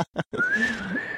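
A person whistles one sustained, clear note that rises slightly and then eases back down, just after two brief breathy sounds.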